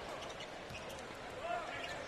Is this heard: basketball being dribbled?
yes